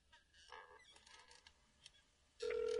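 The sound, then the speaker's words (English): A telephone ringing tone plays over speakerphone after a number is dialed. A faint, near-silent stretch gives way to a loud, steady buzzing tone that continues to the end. “The number's been dialed. We got it up on speaker.”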